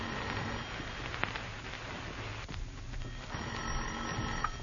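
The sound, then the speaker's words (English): An office telephone rings, its bell coming in short bursts over a hissy, muffled background. “You pace the floor of your office, and finally the phone rings.”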